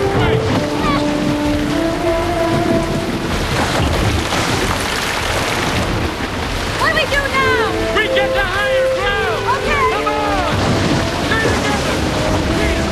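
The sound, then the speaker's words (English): Rushing water surging down a flight of stairs, a loud, continuous churning roar with tonal, music-like swells rising above the flow. “They start climbing the stairs, now a flowing waterfall. A wave of water surges toward them, knocking them back into the hall.”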